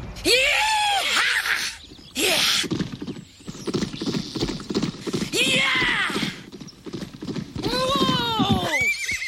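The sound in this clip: Several shrill, wavering horse whinnies rise and fall over a busy, loud backdrop of hoofbeats from galloping horses, with short gaps between bursts.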